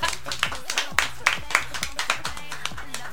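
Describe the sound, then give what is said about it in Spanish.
Applause from a small group, a run of quick, uneven claps with a few sharper strokes, over voices. “Un aplauso, por favor.”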